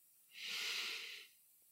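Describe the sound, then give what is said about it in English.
One deep breath in during a guided breathing exercise: a soft, airy hiss that swells and fades over about a second, with no talk. “So on the count of three, we're going to take a deep breath in.”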